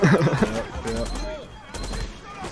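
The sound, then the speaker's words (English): Gunshots ring out in a Justice League movie scene, a few sharp cracks and bursts under voices. “We can't have the gun being fired and the body dropping in the same shot.”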